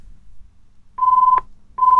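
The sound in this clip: Telephone call being dialled and ringing to reach a bingo player, heard as steady mid-pitched electronic tones: a low murmur, then two flat beeping tones, the second cut off at the end.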